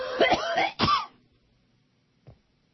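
Phlegmy throat clearing: two harsh, rasping bursts in quick succession, loud and alone, then quiet.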